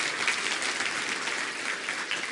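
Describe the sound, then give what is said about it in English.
Audience applause for a group being thanked, a steady patter of many hands clapping at a moderate, fairly soft level, even and unbroken throughout. “Give them a hand clap because they deserve it.”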